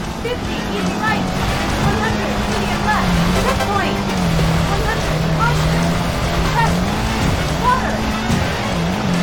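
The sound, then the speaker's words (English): Rally car engine in a Sega racing video game, a steady droning roar that wavers in pitch throughout, with a voice talking over it. “It's a Sega game. It's a Sega racing game.”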